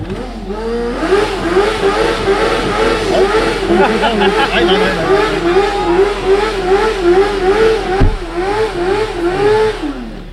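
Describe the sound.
A car engine revs again and again, a loud, steady drone whose pitch wavers up and down in quick surges, with one sharp click late on.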